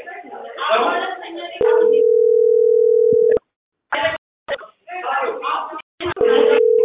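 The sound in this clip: A steady electronic telephone tone while calling someone, holding a flat pitch for nearly two seconds between stretches of talking, broken by a few clicks, then returning briefly at the end.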